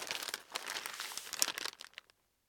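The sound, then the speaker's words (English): A bundle of newspapers crackles and rustles as it is quickly unwrapped, a continuous dry, faint crinkling lasting about two seconds before stopping into silence. “He felt a bundle of newspapers and pulled it out. He quickly unwrapped it.”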